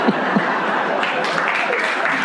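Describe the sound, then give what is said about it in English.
Steady applause from an audience, with dense clapping that holds at an even level throughout and a voice speaking over it. “applause. Standing ovation.”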